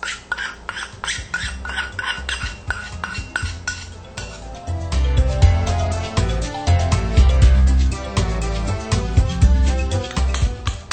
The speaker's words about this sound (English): You can use vinegar or lemon juice. Just mix a little bit.